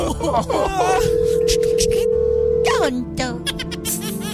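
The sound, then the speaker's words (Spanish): A telephone rings out while a call is being dialed: one steady, long electronic tone lasting about two seconds, heard beneath people talking. “Le estamos marcando.”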